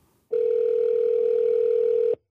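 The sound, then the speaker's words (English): A steady telephone tone plays while an American number is being dialed: a single loud, unbroken hum that starts abruptly, holds for about two seconds, then cuts off cleanly, with no voices. “Okay, so I'm dialing, and just FYI, it is an American telephone number.”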